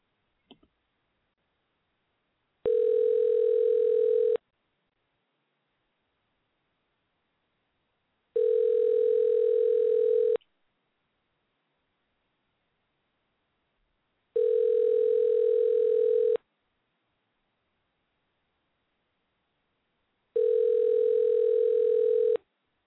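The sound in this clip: Telephone line tones while placing a prank call: a brief click, then four evenly spaced steady buzzing tones, each about two seconds long and separated by several seconds of silence.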